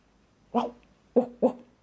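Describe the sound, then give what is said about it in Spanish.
A dog gives three short, high yelping barks. The first is slightly longer, and the last two come in quick succession. “justo debajo de un árbol se encontraron con un perro que les preguntó”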